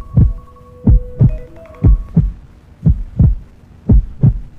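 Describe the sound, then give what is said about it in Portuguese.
A steady heartbeat, a few loud, low double thumps in an even rhythm, each pair a strong beat quickly followed by a second one, heard alone without any talking. “agora você vai se abraçar ao som desse coração.”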